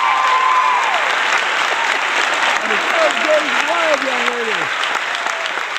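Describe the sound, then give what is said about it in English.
Enthusiastic audience applause welcomes an author onto a stage for a talk about the book The Spare Room. Dense, loud clapping holds steady throughout, with a few voices whooping above it. “So ladies and gentlemen, please put your hands together and help me to welcome author of The Spare Room, Emily Chang.”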